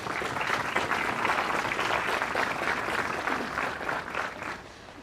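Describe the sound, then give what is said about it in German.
Audience applause at a public gathering: a steady, full round of clapping that holds evenly, then thins and fades at the end. “Deswegen möchte ich erstmal einen ganz großen Applaus, dass Sie heute sich getraut haben, hier dabei zu sein.”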